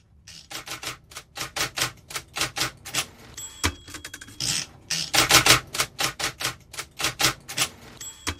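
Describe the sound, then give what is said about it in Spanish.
Rapid manual typewriter typing: many sharp, clacking keystrokes in uneven bursts with short pauses, loud and alone with no voices. “No sé si es una Olivetti exactamente, ¿no? Pero está muy presente el sonido de la Olivetti también en la novela.”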